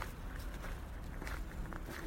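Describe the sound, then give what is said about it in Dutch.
Footsteps crunching through fallen leaves and over gravel outdoors in cold air: a faint, continuous rustling crunch of steady walking, with no voices. “behalve de blaadjes waar ik doorheen struin, maar dat gras zachtjes voelt onder mijn voeten en ook minder geluid maakt dan het grind waar ik op loop”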